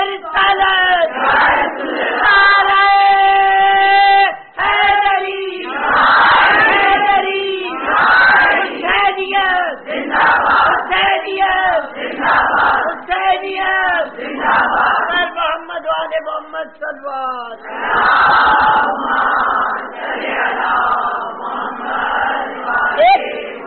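A large crowd chants "Allahu Akbar" in unison in response to a Nara-e-Takbeer call. The chorus comes in repeated loud, full-throated bursts with brief gaps between them.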